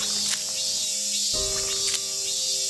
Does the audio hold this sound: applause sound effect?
no